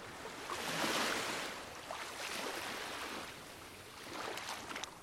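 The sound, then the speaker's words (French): Ocean waves wash in soft, hissing surges that swell and recede a few times, staying fairly faint throughout. “Je m'en remets à l'océan, au tumulte des vagues, à la joie des éléments.”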